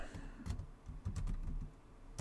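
Typing on a computer keyboard: soft, quiet clicking in a few irregular clusters of keystrokes, with no voices.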